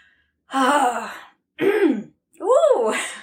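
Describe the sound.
A person clears their throat in three separate rough, voiced bursts, each rising and falling in pitch and separated by short silences. The third burst is the longest.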